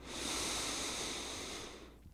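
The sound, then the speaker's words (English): A deep inhale lasting about two seconds: a steady, breathy hiss that swells quickly, holds, then tapers away at the end, with no talking. “Go ahead and inhale all the way in.”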